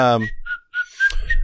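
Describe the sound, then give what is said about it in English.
A person whistling a few short, thin, high notes, heard just after a brief voice. “That's an interesting way to whistle.”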